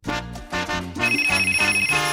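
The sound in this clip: Telephone ringing for a radio contest segment, a rapid trilling bell pulse that enters after a few tonal notes and repeats steadily over a harmonic backing.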